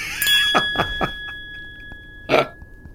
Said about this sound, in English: Give me a sec. I'm going to ring the bell because we just learned something.